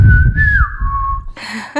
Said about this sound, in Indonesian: Diganti dengan siulan ya dia.